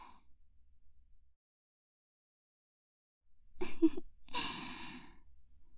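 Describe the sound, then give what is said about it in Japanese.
A slow breath in followed by a long, sighing breath out, heard alone and faintly after near silence. “吸って吐いて。”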